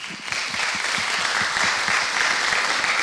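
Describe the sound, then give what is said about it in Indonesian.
Applause from friends in an audience after a sung Malay verse performance: many brisk claps blend into a steady, loud patter that holds for about three seconds without voices. “Yang tepuk itu mesti kawan-kawan saya.”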